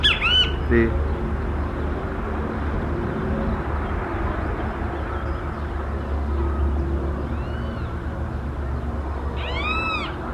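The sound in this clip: A bird squawks in a jacaranda tree, giving a few harsh calls at the start and another cluster of rising-falling squawks near the end. A steady low rumble runs underneath.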